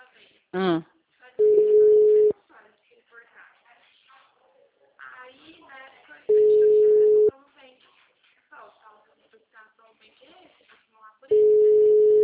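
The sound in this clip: Busy-line telephone tones on a call to a bank's toll-free number: three long, steady beeps of about a second each, spaced several seconds apart, with faint voices talking between them.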